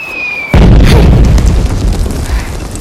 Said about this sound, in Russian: Нина ползет по полю боя, рядом раздаются взрывы.